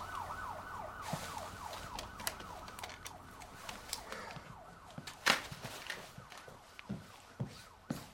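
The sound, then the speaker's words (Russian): Police car siren in a film scene, wailing in rapid repeating up-and-down sweeps. It is faint and continuous, with scattered clicks and knocks over it. “Звук полицейской сирены.”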